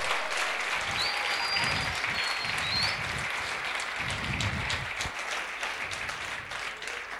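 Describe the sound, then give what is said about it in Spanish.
Sustained applause from a church audience during a service, dense steady clapping that holds at an even level for the whole stretch, with no talking over it. “dale un aplauso.”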